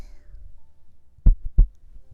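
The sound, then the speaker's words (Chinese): A single heartbeat: two deep, soft thumps in quick succession, lub then dub, after a faint low rumble. “为你跳动的心跳。”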